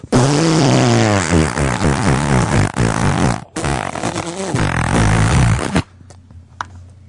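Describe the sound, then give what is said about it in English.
A long, buzzy fart sound played back from a phone voicemail message, with a rough, low tone that wavers and sputters for nearly six seconds, loud and on its own, before cutting off to a faint tail. “Did you put the phone up to your ass and fart?”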